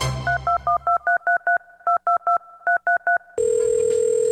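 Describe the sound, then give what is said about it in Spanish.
A phone number is dialed on a keypad, a long run of crisp two-tone beeps in quick groups with short pauses between them. A continuous steady tone follows at the end. “Espere pues, yo lo llamo, acá tengo el número.”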